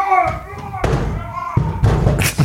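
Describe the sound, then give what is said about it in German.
A door is slammed shut very loudly, giving heavy, abrupt thuds that cut sharply through the sound, while people talk in between and around the bangs. “Er schließt die Tür, sehr laut übrigens.”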